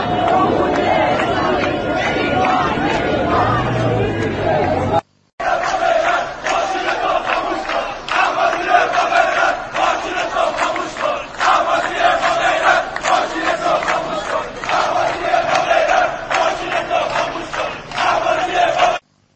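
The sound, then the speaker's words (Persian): Crowds chant and shout during street protests in Iranian cities: loud massed voices in a rhythmic chant with overlapping shouts, broken by one brief cut partway through. “بله، گوشه ای از صدای اعتراضات مردمی ایران رو شنیدیم از شهرهای مختلف”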